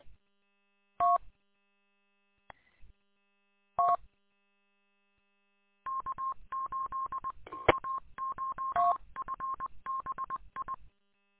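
Telephone keypad dialing: a few isolated quiet touch-tone beeps, then a rapid run of many beeps in quick succession, with silence between the early presses.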